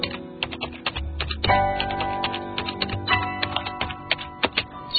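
Fingers type on a computer keyboard in many quick, irregular clicks and taps, with short pauses between bursts of keystrokes.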